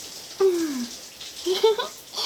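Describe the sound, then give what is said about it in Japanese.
Shower water rinses foam out of hair, a soft, continuous spray hiss that stays fairly quiet and even throughout. “シャワーの厚さは、さっきと同じくらい。じゃあ、流すから、目はしっかり閉じててね。”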